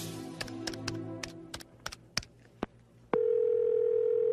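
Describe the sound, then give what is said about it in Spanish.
Telephone dial tone after dialing a number: many sharp, irregular key clicks, then a loud, steady, single-pitched tone lasting over a second. “en previsión de que mi teléfono estuviera intervenido, marqué el número de la Cancillería española.”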